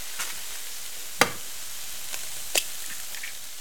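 Eggs and milk fry in a pan with onion, giving a steady, even sizzle with a few brief clicks and taps.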